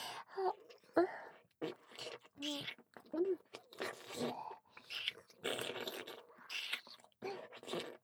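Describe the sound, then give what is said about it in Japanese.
Wet, sticky mouth sounds of someone eating whipped cream with syrup: many short, separate bursts of smacking and squelching, fairly quiet, with brief pauses between them. “シロップ入りのホイップクリーム、おいしい。”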